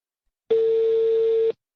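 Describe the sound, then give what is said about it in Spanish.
A telephone emits a single steady electronic tone while a call is being placed. It lasts about one second, starts and stops abruptly, and plays alone with no voices. “Vamos a llamar a la abuelita Chachi”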